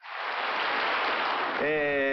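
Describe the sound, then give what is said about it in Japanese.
An audience applauds an amateur gidayu performance recorded in Minamitane, Kagoshima. Dense, even clapping rises quickly and holds steady at a fairly faint level, and a held tone enters near the end. “満場割れんばかりの拍手ありがとうございます。”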